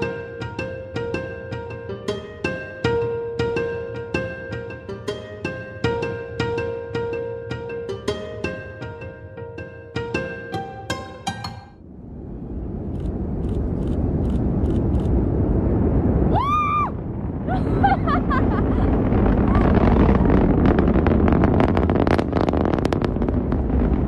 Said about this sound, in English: That's the sound of SpaceX's Falcon 9 rocket launching Behnken and Hurley from the Kennedy Space Center